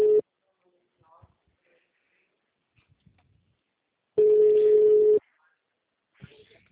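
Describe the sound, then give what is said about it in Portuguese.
Telephone ringback tones of an outgoing call: the tail of one steady low beep at the start, then a second beep of about one second after a quiet gap, with faint clicks in between. “Eu vou ligar agora, tá?”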